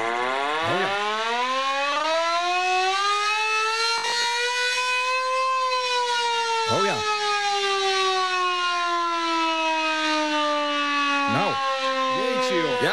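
A hand-cranked air raid siren in a shed in Lekkerkerk gives one long, loud, continuous wail. Its rich harmonic tone climbs in pitch over the first few seconds, then slowly sinks as the cranking goes on.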